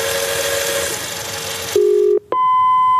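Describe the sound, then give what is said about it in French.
Telephone answering machine tones before a message: after a stretch of noisy sound, a steady mid-pitched tone sounds, breaks off briefly, and a higher steady beep then holds to the end. “Laissez vos messages sur le répondeur.”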